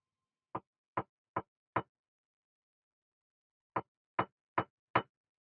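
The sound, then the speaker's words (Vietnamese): Two sets of four sharp knocks strike the shared wall between men's and women's toilets. The raps within each set are evenly spaced, and a long silence separates the two groups. “Thế rồi đột nhiên tiếng gõ cửa cộc cộc vang lên. Nhưng không phải là từ phía cửa mà phía bờ tường chung của cả 2 phòng toilet nam nữ.”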